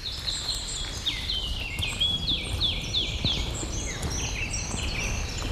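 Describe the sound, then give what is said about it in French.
Birds sing along a waterlogged trail: repeated high chirps and short, falling whistles overlap in a lively chorus over a constant low background hiss and rumble. “Mais les oiseaux enchantent cet univers plutôt”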